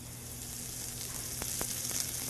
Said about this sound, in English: And just using chopsticks, you gotta move really fast so you can cook the green onions evenly. And you create this green onion oil.